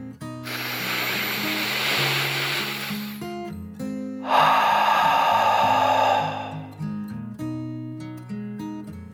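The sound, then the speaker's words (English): A deep dragon breath drawn in and let out, heard as two long, loud airy whooshes, one after the other, over soft steady music. “took one last deep dragon breath in and out.”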